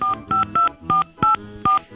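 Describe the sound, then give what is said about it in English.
Telephone dialing tones from pressing keys on a phone keypad: six short, clear electronic beeps, each a steady two-tone chirp, in a quick, slightly uneven sequence. “Do I dial 9 here? Dial 9 again.”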